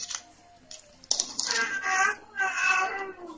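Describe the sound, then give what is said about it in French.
A child cries in two drawn-out, wavering wails with a slightly falling pitch, fairly faint, after a few softer scattered sounds at the start. “L'enfant est en train de pleurer.”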